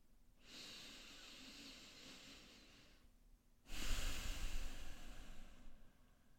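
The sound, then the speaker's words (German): Slow, deep breathing during a guided relaxation with eyes closed: a long, soft, airy inhale, a brief pause, then a louder, fuller exhale with a rushing hiss. No voice accompanies it. “nimm ein paar tiefere Atemzüge ein und aus.”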